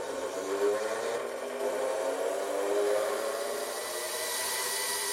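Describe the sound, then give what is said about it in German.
Honey extractor centrifuge spinning honey out of the combs: a steady, dense whirring drone that holds a constant level throughout. “fängt sachte an und erhöht dann im Lauf des Schleudervorgangs die Drehzahl, sodass der Honig durch die Zentrifugalkraft aus den Waben geschleudert wird.”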